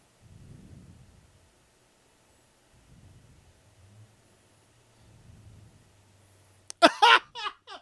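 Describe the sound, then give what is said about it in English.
Thunder from a huge storm, heard as three faint, low rolling rumbles spaced apart, then a sudden louder, brighter burst at the end. “The biggest storm in history.”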